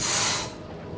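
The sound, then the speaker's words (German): A deep exhalation during a guided breathing exercise, a broad, airy hiss that is loud for about half a second and then drops to a fainter, steady breathy tail. “Tief einatmen. Tief ausatmen.”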